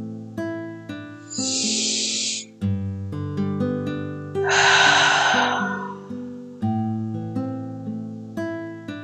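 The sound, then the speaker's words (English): Deep breathing during a guided breathwork exercise: two long, airy breaths, the second louder and fuller, rising over soft, sustained tonal music. “As we conclude our breath work together, let's take one final breath in and out.”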